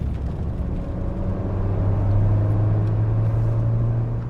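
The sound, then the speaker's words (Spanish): A car engine rumbles low and steady as the driver steps on the accelerator, the drone growing slightly louder partway through. “Lo que parecía una posible liberación se esfumó tan pronto como escuchó que la gente de la DEA al volante pisó el acelerador.”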